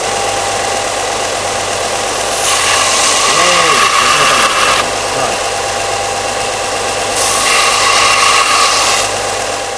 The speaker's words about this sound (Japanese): でこれベルトサンダーって言って、ここにサンドペーパーがぐるぐる回ってるような機械なんですけど